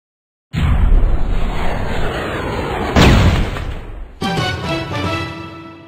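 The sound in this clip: Heavy explosions and gunfire from a science-fiction military shooter video game. Two loud booming bursts arrive a few seconds apart, each with a long rumbling decay, followed by sharper, ringing tonal sounds.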